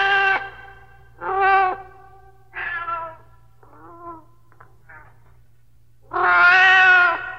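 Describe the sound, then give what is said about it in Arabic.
A hungry cat meows repeatedly, several clear, tonal calls separated by pauses, with a couple of fainter, shorter mews in between and a final meow that is the longest and loudest, over a low steady hum. “مواءها يناديني فأسرع إليها فتقترب مني وكأنها تقول أطعميني”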